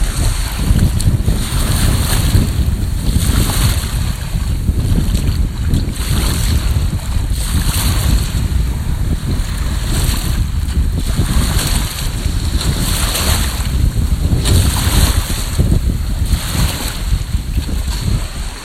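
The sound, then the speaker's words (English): Waves wash at a lake in a cool breeze, giving a loud, continuous roar of water and wind noise that swells gently and recedes in recurring surges. “you're at the lake, cool breeze, nothing but waves,”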